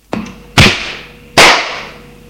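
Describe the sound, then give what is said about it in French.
A slap across the face lands as sharp, crisp cracks: a light tap, then two loud smacks in a row, each trailing off quickly. “Il la gifle.”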